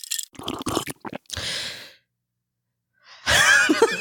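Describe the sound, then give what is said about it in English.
A person's breathing: a few breathy exhalations and a sigh-like breath, followed by a silent gap and then a louder breathy burst at the end. “I was honestly going to start and then I heard my own breath and I was like, I don't want that in the episode.”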